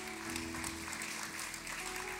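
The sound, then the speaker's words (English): An audience applauds with hand claps at a church service, a dense, steady wash of clapping that fills the whole clip at moderate level, with a faint tonal hum underneath. “Let's give God a big hand clap.”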